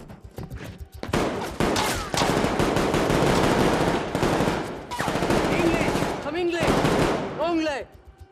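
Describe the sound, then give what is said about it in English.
Heavy gunfire from a sandbag barricade at the far end of a street: rapid, dense bursts of shots that crack loudly and continuously, with only brief gaps, and keep going for several seconds. “Taking shelter behind a bin store, he's targeted with gunfire from a sandbag barricade at the far end of the street.”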